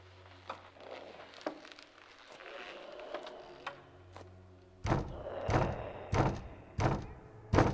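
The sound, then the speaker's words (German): Knocking on a hallway door in a tense horror scene: a few faint thumps first, then about five heavier, evenly spaced knocks that grow louder toward the end. “Das Grauen begehrt höflich klopfend Einlass.”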